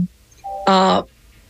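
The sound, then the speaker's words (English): A telephone rings with a short electronic chime, one brief tone followed by a louder, richer burst, standing alone against a quiet background. “I got a phone call, y'all. That's no good.”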